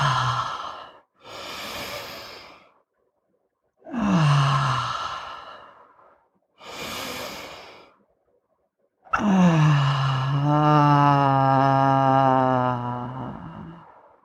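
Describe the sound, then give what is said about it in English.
Deep, slow breathing, drawn in through the nose and let out through the mouth. Several soft, airy breaths with pauses between them end in a long voiced sigh, and no one talks over them. “Take three nice deep breaths in through the nose, all the way down to your pussy. And out through the mouth.”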